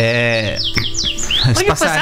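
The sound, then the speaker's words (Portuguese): A small bird chirps in a few quick, high, descending tweets, with a harmonic human voice heard around them. “Passarinho voltou. Cadê ele?”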